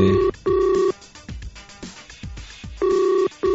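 A telephone rings with an incoming call, sounding a steady electronic tone in paired pulses, a double ring repeated twice. Softer thumping sounds fall in the gap between the rings.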